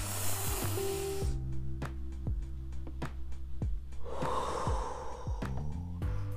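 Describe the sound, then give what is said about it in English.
Deep breaths drawn in through the nose make soft, airy hissing inhalations, faint and unhurried, in a couple of separate passes with quiet gaps between. “So breathe through your nose.”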